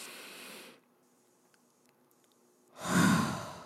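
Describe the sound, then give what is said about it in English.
Deep breathing: a soft breathy exhale at the start, a quiet pause, then a louder, full sigh-like breath. “Let's take a breath, inhale and exhale.”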